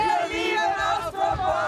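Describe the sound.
Fans roar and cheer at an Austropop concert, a loud, continuous wash of shouting voices that holds steady throughout with only brief dips.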